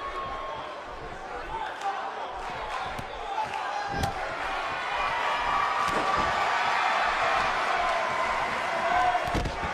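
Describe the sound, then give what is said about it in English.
A wrestler's body slam onto the ring mat during a wrestling match: a couple of sharp, heavy thuds standing out from a steady, rising roar of crowd noise. “A huge slam by Big E”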